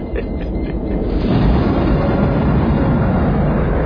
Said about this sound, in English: the Russian space station has fired a rocket to simulate gravity and let us work faster.